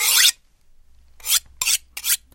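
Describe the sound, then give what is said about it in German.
A butcher knife is sharpened with a few bright, rasping strokes: one stroke, a pause, then several quicker passes in succession. “Das Metzgermesser ist geschliffen.”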